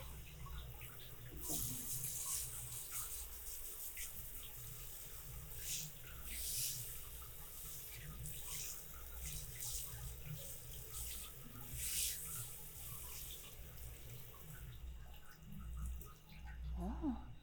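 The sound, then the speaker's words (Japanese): Water runs steadily while someone's back is rinsed clean of soap after washing, a continuous faint hiss and splash without pauses. “上がった後ぬるぬるするからの。背中も流していくぞ。”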